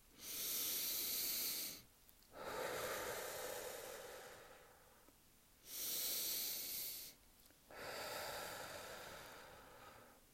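Two deep breaths taken during a guided meditation, each a soft, airy inhale followed by a longer hissing exhale, quiet and unhurried with brief pauses between.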